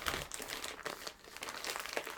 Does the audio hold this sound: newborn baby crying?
no